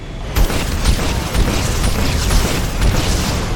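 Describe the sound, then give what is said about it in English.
Video game missiles striking a satellite, a continuous roar of rumbling booms with several heavier thuds landing at irregular intervals, loud throughout. “Let's try shooting missiles at the satellite.”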